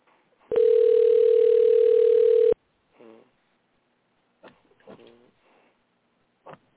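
A steady telephone dial tone holds at an even pitch for about two seconds before cutting off. A few short, quieter sounds follow.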